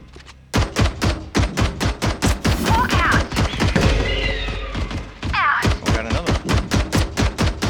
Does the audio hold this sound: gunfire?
yes